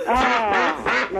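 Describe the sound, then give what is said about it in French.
Nasal, buzzy duck quacks, a few in a row with rich harmonics, fairly loud and without talk over them. “On va t'envoyer un petit cadeau. Oh bah c'est super. Un petit canard. On va t'envoyer un canard.”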